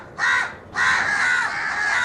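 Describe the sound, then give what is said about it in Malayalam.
Crow cawing: two harsh, raspy caws heard alone, a short one followed by a longer, drawn-out call. “ഒരു കാക്കയും ഭക്ഷണം കണ്ടാൽ ഒറ്റയ്ക്ക് കഴിക്കുകയില്ല, തൻ്റെ സഹജീവികളെ കൂടി വിളിക്കും.”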